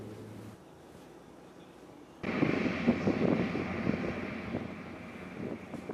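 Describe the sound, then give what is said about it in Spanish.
Engine noise of an MQ-9 Reaper, a large unmanned military aircraft: a steady, broad droning roar that cuts in abruptly after a quiet opening and holds fairly loud to the end. “Veamos imágenes oficiales publicadas por el Pentágono que muestran las características de esa moderna aeronave no tripulada, conocida como el Ángel de la Muerte.”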